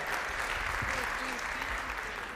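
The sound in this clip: Audience applause welcoming a speaker named Malika to the stage: a steady wash of clapping from many people, with a voice briefly heard over it.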